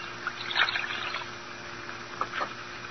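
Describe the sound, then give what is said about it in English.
Water trickles steadily while glass medicine bottles are washed in a pantry, a soft continuous flow broken by a few brighter splashy spurts. “Washing bottles? Isn't that Dottie's work? This at least I can do for my husband, even though I'm not allowed to see him.”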